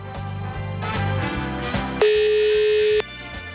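A single steady telephone tone, about a second long, sounds loudly over background music as a call is placed.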